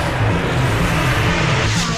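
A racing car engine, Formula 1 style, roars loudly and steadily throughout with a dense, low, droning growl.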